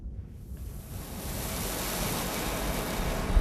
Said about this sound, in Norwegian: Hørte dere det? Det er lyden av ei svele røre som blir lagt på takka hos nærbutikken Eidsfoss, Eidsfoss landhandleri.